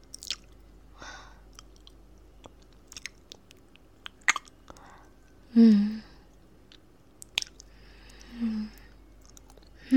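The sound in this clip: Mouth sounds of tasting and licking stay quiet and intimate: faint, scattered wet clicks and smacks, with a few louder squelchy licks standing out from the soft background.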